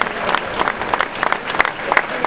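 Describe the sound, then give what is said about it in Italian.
Audience applause at a political gathering of a local electoral list. Many hands clap densely and irregularly, with scattered louder claps standing out, and the sound is somewhat muffled and lacking in brightness. “Antonio Salerno, che accogliamo con un applauso fortissimo”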